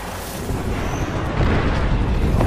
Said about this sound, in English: Airstrike en route.